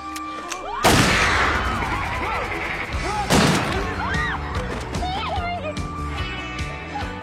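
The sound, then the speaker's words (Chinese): Gunshots in a horror drama scene where a man shoots himself: two sharp, loud bangs about two and a half seconds apart, each decaying quickly, with voices and other background sounds continuing underneath. “最后，男友当着小白的面开枪自杀了。”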